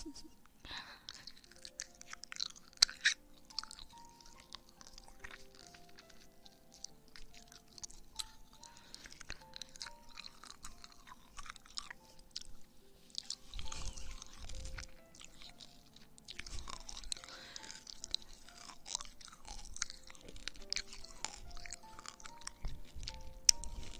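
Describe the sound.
Chewing sour gummy candy: many soft, irregular wet squishes and bites, quiet and close, with faint tonal notes underneath.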